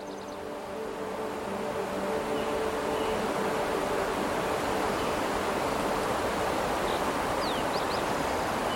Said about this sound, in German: ein kleines Tal aus, in dem ein kristallklarer Bach glitzert. Das Wasser plätschert über glatte Steine,